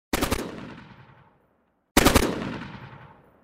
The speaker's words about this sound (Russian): Рядом лежащие стреляли. Стрелял и Мишка.